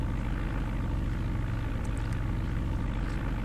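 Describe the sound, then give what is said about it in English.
Propeller engine drone of a Cessna plane in a flight video game, a steady, loud, unbroken hum with a dense low rumble throughout and no voices. “Games. I am sitting in the cockpit of a Cessna plane”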